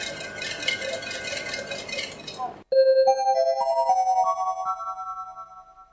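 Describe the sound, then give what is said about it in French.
A kitchen machine whirs and rattles steadily as it blends mascarpone, sugar and vanilla sugar in a bowl, then cuts off abruptly, followed by a sequence of clear electronic chime tones stepping upward in pitch. “je vais activer la machine pour que ça fasse un mélange homogène”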